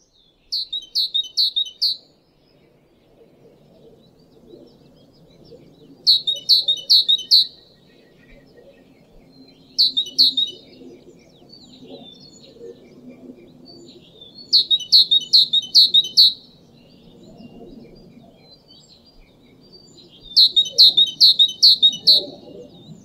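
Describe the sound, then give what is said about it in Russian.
A tit sings five separate phrases, each a quick run of bright, high repeated notes lasting about two seconds, with pauses of several seconds between them over a faint low rumble. “Синица.”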